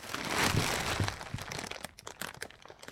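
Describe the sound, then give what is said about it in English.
Plastic sheets crinkle and crackle as they are handled over a lino floor, a dense rustling rush at first giving way to many sharper, scattered crackles. “you have the plastic sheets? Yep. That's it.”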